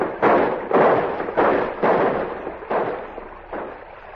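Six heavy, booming rifle shots ring out as a celebratory volley from men arriving in canoes at a riverbank. Each shot hits hard and decays slowly, spaced unevenly over about four seconds.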